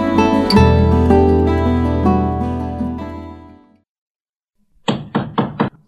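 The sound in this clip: Four quick knocks on a door, sharp and evenly spaced, coming after a sustained musical chord that fades into silence.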